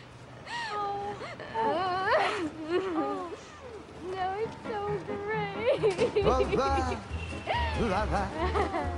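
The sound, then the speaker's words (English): A woman sobbing: wavering, rising-and-falling wails and shaky gasps, fairly loud, with broken speech mixed into the crying. “Gina gave the sobbing Carol a big hug, and Richie joined in.”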